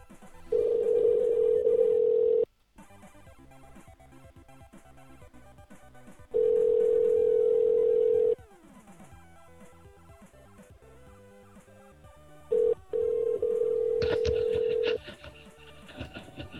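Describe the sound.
A telephone line tone sounds in three long, steady bursts of about two seconds each. Between them, stretches of dense, busy background sound fill the gaps.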